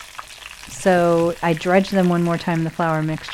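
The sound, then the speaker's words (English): Flour-dredged food refrying in a deep fryer sizzles with a steady hiss, audible alone at first and then running beneath a person talking. “Listen to that. That is the sound of beautiful fried goodness.”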